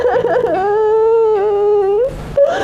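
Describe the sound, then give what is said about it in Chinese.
Crying rises into a sustained, wavering high wail with a trembling pitch, loud and close, breaking off briefly before a short sob near the end. “别哭了”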